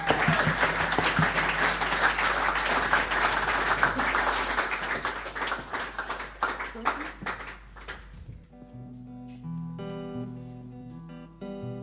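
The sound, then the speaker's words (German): Warm audience applause, a dense and steady wash of many clapping hands for about eight seconds, then thinning out as sustained instrumental music takes over. “Vielen Dank für diesen sehr warmen Applaus.”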